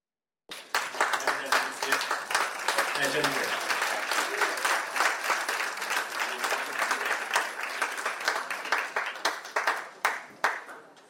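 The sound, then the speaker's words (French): Sustained applause from a large audience giving an actor a long ovation at the Cannes Film Festival. Dense, even clapping starts abruptly, holds steadily throughout and thins slightly toward the end. “l'acteur qui a reçu une longue ovation au Festival de Cannes.”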